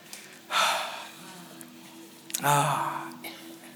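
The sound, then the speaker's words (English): An audience breathes out together in two loud, breathy bursts of rushing air. The second exhalation carries a few faint voiced tones, with quiet background noise in between. “Come on, can you breathe out for me today? Come on, everyone.”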